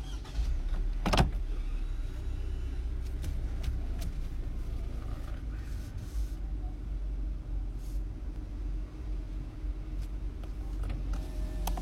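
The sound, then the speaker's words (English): Low steady engine rumble of a car creeping forward in a drive-through vaccination line, a continuous idle-like hum with one sharp knock near the start and faint rattles throughout. “okay, this car's moving forward. I gotta move forward to the next spot here.”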